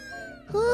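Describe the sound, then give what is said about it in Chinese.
Cats meowing in a yard after jumping in, two drawn-out, tonal meows in a row, the second one louder and sliding slightly upward in pitch. “这个声音可是从院子里来的哦。是什么呢？你看，小猫咪跳进院子了。”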